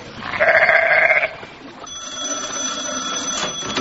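A sheep bleating once, a wavering nasal cry of about a second, followed by a faint, steady high-pitched ringing tone.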